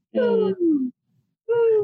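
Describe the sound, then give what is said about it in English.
A human voice imitates the subtle hooting of an owl: three soft, breathy hoots with a slightly falling pitch. The first two come close together, then a short pause before the third. “there was this owl that has been out there with me, and it's just the like most subtle,”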